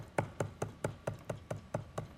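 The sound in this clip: Knocking on a door: nine sharp, evenly spaced raps in a steady, unhurried rhythm, each about the same strength, with no talk over them.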